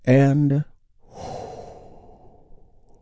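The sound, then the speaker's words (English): A big, deep breath is taken during a guided relaxation exercise. A short voiced sound comes first, then a long, soft, airy breath lasting over a second, fading gradually into quiet. “We start by taking a big, deep, healing breath with me right now.”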